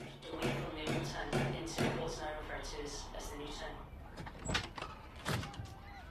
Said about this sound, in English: He answers the front door.